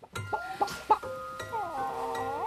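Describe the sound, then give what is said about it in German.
A white hen clucks: a few short, tonal clucks come first, then a longer, wavering, drawn-out call, moderately loud with no voices. “Das ist doch bloß ein Hühnle”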